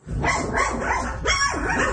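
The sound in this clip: Doberman puppies bark and yip in a continuous, loud, high-pitched chorus with whimpering cries, swelling in two long stretches.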